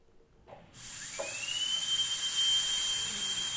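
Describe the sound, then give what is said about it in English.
A drill spins up, its whine rising quickly in pitch and then holding a steady, piercing high tone over a constant hiss until the end. “It's a drill.”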